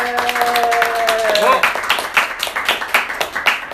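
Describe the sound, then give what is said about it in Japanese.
An audience claps at a live public recording event. A brief tonal chime comes first, then a run of quick, sharp clapping bursts with some voices mixed in. “拍手の音が ほら ありますよ。”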